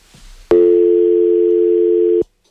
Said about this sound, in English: We're getting a call, so I'm going to connect the caller.